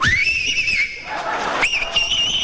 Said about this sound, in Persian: سه تا انگشتش یا دو تاشو گذاشته تو دهنش داره سوت میزنه